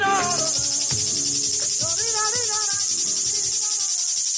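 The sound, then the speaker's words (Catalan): Periodical cicadas of the kind emerging in the US keep up a continuous, high-pitched buzzing drone, steady and fairly loud throughout, with faint other sounds beneath. “parlant de cigales. No, aquestes cigales no, aquestes.”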